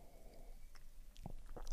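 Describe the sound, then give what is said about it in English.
Someone sips oil coffee, making faint, short wet slurps and clicks near the end over a quiet background. “I'm going to take a little sip of coffee as we're chatting here.”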